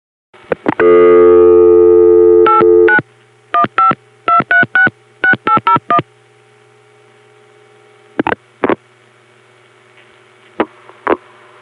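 Telephone network tones: a steady dial tone gives way to a rapid series of short multi-frequency dialing bursts, then a few sparse clicks, as the call routes from Dallas 4A through the Sweetwater crossbar tandem into a step-by-step office.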